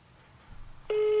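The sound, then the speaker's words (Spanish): A telephone call tone sounds as a call is placed again. After near-silence, a steady, loud electronic tone starts about two-thirds of the way in and continues unbroken to the end. “Hagamos la llamada nuevamente, no hay ningún problema. Me encanta ese tono, por cierto.”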